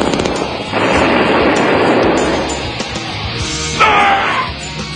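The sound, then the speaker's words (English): Gunfire as a contestant's craft is shot out of the sky in a comedy sketch: a dense, rumbling burst of noise lasting about two seconds, fading off, then a brief high whistling tone near the end. “I got shot out of the sky. That was far out. Oh, that was far out, man. Commander Butthole got shot out of the sky.”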